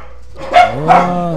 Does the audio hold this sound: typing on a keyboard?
no

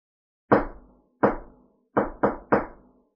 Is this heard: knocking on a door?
yes

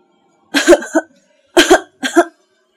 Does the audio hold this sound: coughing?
yes

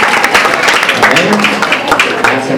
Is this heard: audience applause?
yes

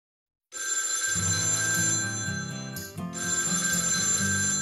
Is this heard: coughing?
no

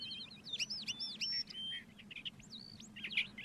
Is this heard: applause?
no

